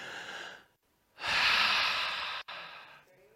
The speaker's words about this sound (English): Everybody, you can take a big, deep breath.